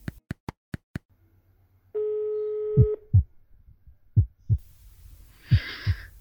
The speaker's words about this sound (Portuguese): Comecei a transpirar pelo simples fato da ligação estar chamando e no terceiro toque já aguardava trêmula a mensagem automática